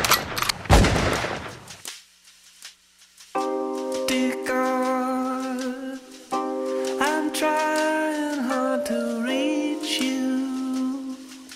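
A burst of gunfire crackles through the first couple of seconds and dies away. After a short lull, sustained music with steady held tones takes over.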